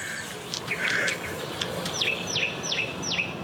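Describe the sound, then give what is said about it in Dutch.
A song thrush sings clear whistled notes, with a few varied phrases early on and then four matching falling notes repeated in quick succession, heard alone over a faint background hiss. “Die zanglijster, daar word je toch helemaal gelukkig van? Ja, hè? Prachtig. Verveelt ook nooit. Verveelt nooit. Kan je uren naar luisteren.”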